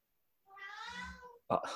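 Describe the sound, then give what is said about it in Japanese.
A pet cat gives a single drawn-out meow lasting about a second, faint and alone, followed by a short burst of another sound. “うちの猫の声がするかもしれません。”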